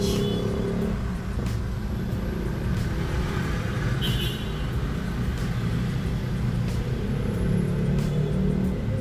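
Car engine rumbling while the car manoeuvres into a parking spot, a steady low drone with slight swells throughout.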